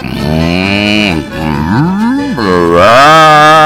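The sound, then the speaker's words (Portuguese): A newborn calf moos three times in spring, asking to suckle, with long, loud, drawn-out calls whose pitch wavers and bends, separated by brief breaks. “Na correria do dia a dia, tava lá o bezerrinho pedindo pra mamar.”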